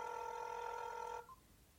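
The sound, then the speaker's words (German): Telephone ringing for an incoming call: a faint, steady electronic ring tone that holds for over a second, then cuts off abruptly, followed by a brief soft blip. “Ah, jetzt ruft er mich an.”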